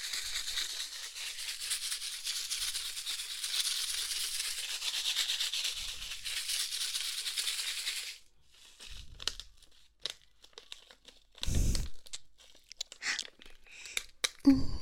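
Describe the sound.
A packet of strawberry popping candy being opened, with a long stretch of steady crinkling and rustling of the wrapper, followed by sparse crackles and a few louder handling noises.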